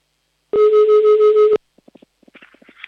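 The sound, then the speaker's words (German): A telephone number is dialed to call a listener: one loud steady tone lasting about a second, then a rapid run of short, faint beeps and clicks. “Ich habe hier schon einen Zettel in der Hand, da wählen wir mal gleich mal die Nummer und hoffen, dass jemand abhebt.”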